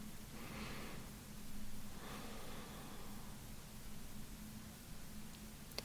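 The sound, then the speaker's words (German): Slow, deep breathing in and out through the nose during a guided relaxation exercise, heard as a few soft, airy swells of breath that are faint against a steady noise floor. “Und dann atme einmal dreimal tief ein und aus durch die Nase.”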